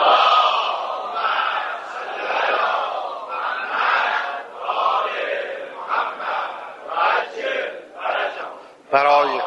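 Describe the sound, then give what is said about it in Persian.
A crowd recites salawat in unison, many voices joined in a loud, rhythmic chant that rises and falls across several phrases. “برای رفع مشکلات جهان اسلام از دست اسرائیل هم یک صلوات دیگه بفرستیم.”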